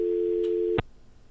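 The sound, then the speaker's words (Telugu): Steady low telephone tone on the line after a dropped call, holding for under a second before a sharp click cuts it off, leaving faint line hiss. “Call cut అయిపోయింది, మళ్ళీ try చేద్దాం.”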